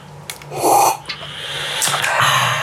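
A person slurps coffee in the mouth, a few breathy, hissing sucks and snort-like draws of air that come in uneven bursts with short pauses between them.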